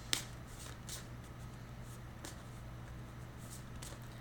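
Someone handling a deck of cards. Faint papery flicks and soft rustles come at a few irregular moments over a steady low hum, with no voices.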